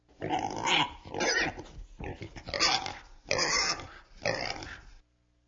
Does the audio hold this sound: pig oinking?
yes